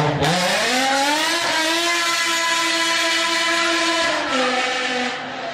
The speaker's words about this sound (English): the E60 has the famous V10 with rod bearing issues, but it has a brilliant sound.